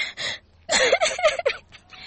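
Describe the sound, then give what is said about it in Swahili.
A child crying, heard as a few short breathy gasps and then a run of wavering, broken sobbing whimpers. Moderately loud, with no other sounds. “usilie mtoto wangu, kwanza ingia ndani ukae”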